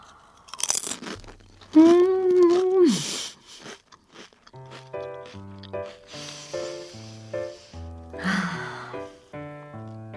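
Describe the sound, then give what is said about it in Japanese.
Crisp crunching of a thin, lightly salted potato chip: a few sharp crackly bites with a brief voiced hum between them, over light music. “この成城石井のね、生産者限定ポテトチップス、薄塩味美味しいんですよね。ちょっと一枚いただきたいなというふうに思います。”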